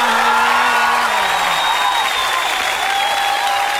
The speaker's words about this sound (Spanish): ¡Qué buen chiste! ¡Oiga, un aplauso!